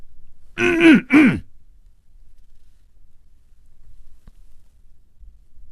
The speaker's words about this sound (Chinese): 他努力地鼓足了勇气，咳嗽了一声。